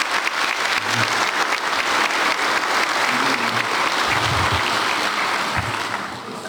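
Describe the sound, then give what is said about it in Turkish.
An audience applauds staff at a speech, giving a broad, sustained wash of clapping that stays loud and even before easing slightly at the very end. “onlar için sizlerden de bir alkış istiyorum değerli hazır”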